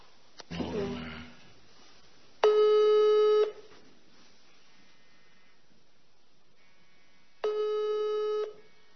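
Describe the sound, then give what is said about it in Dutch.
A telephone ringback tone sounds while a call is placed: two long, steady buzzing tones separated by several seconds of silence. A short, rough noise comes before them. “dachten we, weet je wat, we bellen gewoon eh, Mark Rutte”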